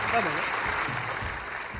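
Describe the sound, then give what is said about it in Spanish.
Audience applause for a guest, a dense rustle of clapping that runs through the whole short moment, with a voice talking over it at the start. “Un aplauso para Pichito, por favor, igual.”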